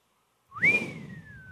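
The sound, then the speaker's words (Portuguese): A single human whistle of astonishment sweeps sharply upward, then glides slowly down in a long, sustained tone over faint low background noise. “E o pessoal assobiava. Aquele assobio do espanto. Eu não sou bom em assobiar, mas vocês sabem fazer o assobio do espanto?”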